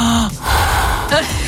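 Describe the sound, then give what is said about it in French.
A person's voice imitates open-mouthed breathing during sleep, producing a few loud, breathy rasping breaths with a gasp-like catch, heavy and raw rather than soft. “Si j'ai la bouche grande ouverte et que j'ai plutôt tendance à dormir en respirant comme ceci.”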